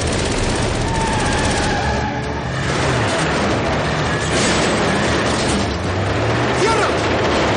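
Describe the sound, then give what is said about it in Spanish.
A heavy armored truck drives out of a garage during a bank-heist scene in the 2010 crime thriller The Town, a loud, continuous roaring rumble that stays dense and powerful from start to finish. “A continuación, el camión sale del garaje y los agentes fuera abren fuego contra él.”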